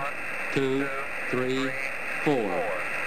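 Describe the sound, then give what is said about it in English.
Amateur radio static over an Oscar 10 satellite link: a steady hiss runs throughout while a distorted, narrowband voice speaks in three short bursts. “So, I mean, there's a bunch of static there, but if you've ever been around folks making amateur radio contacts, or if you are yourself a ham, that's not bad.”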